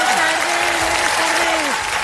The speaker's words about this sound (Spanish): ¡Un aplauso para ella!